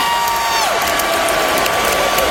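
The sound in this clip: Crowd cheering at an Iron Maiden concert on the Canadian side of Lake Ontario, a loud, dense, continuous roar of many voices and clapping that holds steady throughout.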